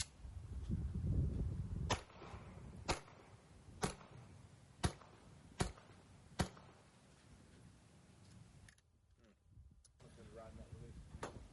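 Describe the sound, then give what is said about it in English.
Six sharp rifle shots, fired with supersonic and subsonic rounds, unsuppressed and suppressed, crack out at roughly one-second intervals, each a short bang that fades quickly, with faint talk before them. “First, gonna go unsuppressed, 3 rounds, supersonic, then 3 rounds, subsonic, grab the suppressor, did the same thing.”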